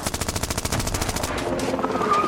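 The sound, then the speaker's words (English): Automatic gunfire strikes the door and roof of a car: a rapid, loud rattle of many shots for just over a second, followed by a rough, noisy rumble that carries on to the end. “we were hit from the side. Bullets ripped through the door and the roof of the car”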